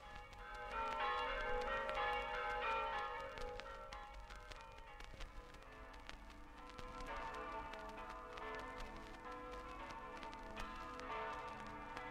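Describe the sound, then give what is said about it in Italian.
Church bells across Friuli ring out for Easter in a full, overlapping peal. Bright sustained tones layer and blend, steady and fairly faint throughout, with no voices. “Tutte le campane del Friuli, dalla Carnia al mare, annunziano la Pasqua”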